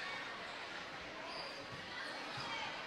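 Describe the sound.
Basketball dribbled up the court during a women's college basketball game, the bounces faint and steady beneath a constant, dense wash of crowd noise.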